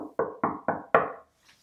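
Knocking on a door: five sharp, firm raps in a steady, even rhythm, the last slightly louder. A faint, brief sound follows after the knocks stop.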